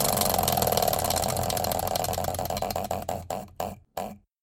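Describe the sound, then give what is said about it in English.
A prize wheel spins with rapid ticking that at first blurs into a steady buzzing rattle. The ticks then slow into a few separate, widely spaced clicks before the wheel stops. “Spin that. Yeah, spin I guess I said next week, but we don't know what next week yeah, is. Yeah, no. Spin the wheel of words. Here we go.”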